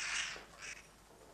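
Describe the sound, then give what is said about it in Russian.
A black raven flies out of a book and gives two harsh, raspy caws: the first longer and louder, the second shorter and fainter, both alone against near silence. “Смочив пальцы слюной, открывает книгу. Из книги вылетает черный ворон.”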